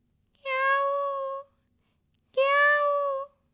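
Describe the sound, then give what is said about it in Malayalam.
A wet cat clinging to a cashew tree in a yard lets out two long, drawn-out meows separated by a short pause. Each cry is clear, steady and tonal, and nothing else is heard around them. “അപ്പോഴാണ് മുറ്റത്തെ കശുമാവിൽ നിന്ന് ഒരു പൂച്ചയുടെ കരച്ചിൽ.”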